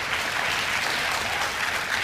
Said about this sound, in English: Now, I see that about a third of you applauded to that.